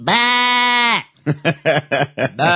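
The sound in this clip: A human voice imitates a sheep bleating: first a loud, sustained nasal bleat, then a quick run of short, wavering bleats.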